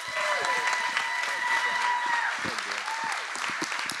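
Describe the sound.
Church audience applauding to welcome a pastor as he comes up, a dense, steady wash of clapping that holds at an even level throughout, with faint voices mixed in.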